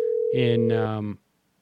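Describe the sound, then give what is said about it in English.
Electronic telephone ringing: a steady buzzy tone that gains a richer, harsher layer partway through, sounds as one continuous ring of just over a second, then stops and leaves silence. “phone is ringing”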